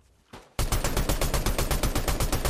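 Rapid automatic gunfire from a weapon with heavy recoil in a video game shooter: a loud, fast string of many shots that bursts in abruptly after a brief quiet moment and hammers on steadily to the end.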